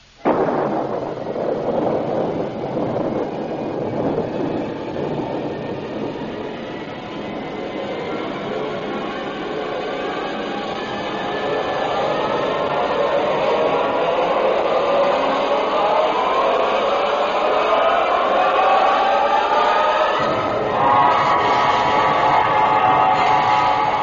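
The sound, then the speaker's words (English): Rocket blast-off: a loud, continuous roar of firing engines that holds steady and grows fuller, with whining tones sweeping upward through the second half. “Countdown for blast off. X minus 5, 4, 3, 2, X minus 1, fire.”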